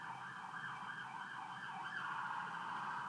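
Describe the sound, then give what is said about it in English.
Faint siren of a passing emergency vehicle, a steady wavering wail that holds continuously at low volume against a soft background hiss. “That's a siren, isn't it?”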